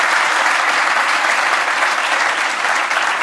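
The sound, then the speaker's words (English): Audience applause at a talk, a dense, steady wash of clapping that holds at an even loudness throughout. “Yeah, please give a hand.”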